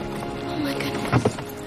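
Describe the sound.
Horse hooves clip-clop as a rider arrives on horseback, a few soft hoof beats sounding amid a busy backdrop with voices.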